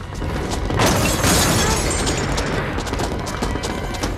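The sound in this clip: Hailstones pound a garden, smashing a birdbath on the front lawn and shattering a garden lamp during a violent storm. Dense, loud clattering and crashing impacts fill the whole clip without pause, with a heavier burst near the middle.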